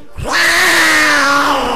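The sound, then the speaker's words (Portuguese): A cat gives one long, drawn-out meow. It is loud and alone, and the pitch holds steady before easing slightly lower toward the end. “Olha o gato!”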